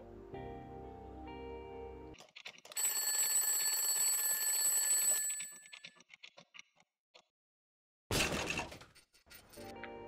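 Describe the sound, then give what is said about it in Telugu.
An alarm clock rings loudly for a few seconds in the morning, then falls silent; after a pause, a sharp, noisy burst of smashing as the alarm is struck and broken. “అరే చెవులు పగిలిపోతున్నాయి అనుకునే లోపే alarm కూడా పగిలి కొట్టేశావు”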